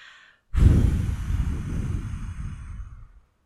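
A deep exhale follows a four-count inhale in a guided breathing exercise: one long, breathy sigh starts abruptly and slowly fades over nearly three seconds.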